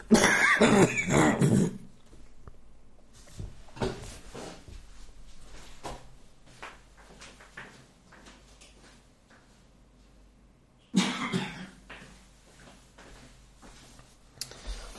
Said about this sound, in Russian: Да, у меня откашливается такая бело-зеленая харкота.